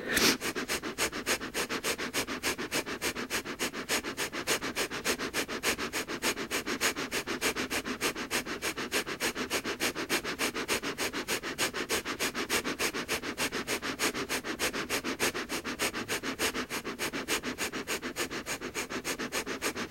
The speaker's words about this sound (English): And exhale. And then inhale, exhale, deep cleansing breath.